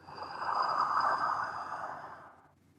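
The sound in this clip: A slow, deep inhale during a guided meditation: a soft, airy breath swells, holds, then fades out over about two and a half seconds. Nothing else is heard.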